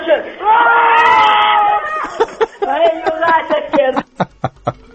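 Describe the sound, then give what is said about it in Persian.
A group of people lets out a loud, sustained roar together for under two seconds, followed by scattered chuckling and short voice bursts that trail off. “بچه های مسجد سلیمون بودن، همه یه نعره کشن.”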